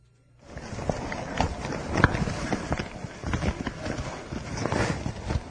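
Muffled footsteps and dull bumping from a tape recorder microphone carried inside a bag while walking around a school, a steady run of soft thuds and rustles.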